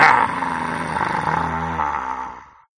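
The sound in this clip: Deep, rumbling tiger growl, loud at the onset and held steady before gradually fading away to silence.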